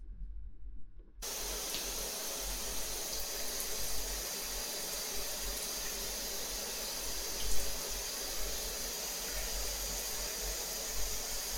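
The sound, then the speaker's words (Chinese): Running water sprays steadily while someone is rinsed off. After a short quiet moment at the start, a loud, even hiss begins and continues without a break to the end. “先生，来，我们来冲水”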